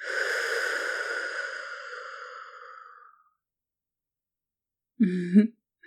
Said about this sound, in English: take a few deep breaths with me. In and out.